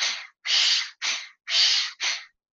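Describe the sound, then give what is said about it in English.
Five forceful nasal breaths come in quick succession, sharp hissing bursts with short silent gaps, as a rapid power nasal inhale-and-exhale breathing pattern used for climbing a hill during exercise. “So you'll do a gear three, which is a power nasal inhale, power nasal exhale. So it's more like,”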